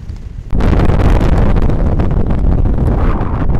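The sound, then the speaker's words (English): Wind blasts across a microphone at a suspension bridge: after a half-second of quieter rumble, a loud, dense buffeting roar cuts in and holds steady to the end. “And if I use a slightly less robust microphone, just listen to the wind.”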